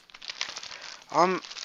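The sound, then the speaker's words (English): Plastic packaging crinkles steadily as a headset is unwrapped, a dense rustling texture that runs through the whole moment, with a short burst of voice partway through. “So now, let's unwrap the headset.”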